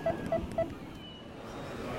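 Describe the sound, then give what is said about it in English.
A cell phone number is dialed: three short, identical keypad beeps at the same pitch come in quick, even succession, then only faint low background noise follows. “He pulled a cell phone out of his pocket and dialed a number.”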